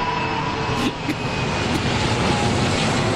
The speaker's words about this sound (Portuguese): Esse é o avião do salário mínimo. Passou!